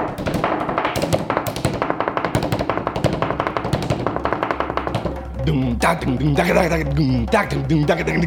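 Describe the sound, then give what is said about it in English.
Mouth-made bass beat in the style of the Bahamian Goombay rhythm: fast, steady percussive taps for about five seconds, then voiced vocal tones that slide in pitch over a low continuous hum. “If you had to make a common bass beat with your mouth, what would the beat sound like? Like boom, boom, boom, boom, boom. Oh, I do it. It's like based on the Goombe beat from the Bahamas.”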